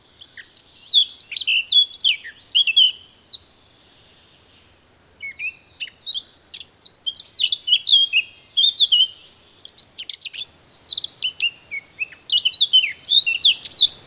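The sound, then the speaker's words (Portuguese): Eurasian blackcap singing alone: bursts of high, quick chirping and warbling phrases with brief pauses between them, and a longer silent gap near the middle. “É a Toti Negra de Barrete. O seu canto começa com um chilreio hesitante, mas depressa se torna aflautado e melodioso.”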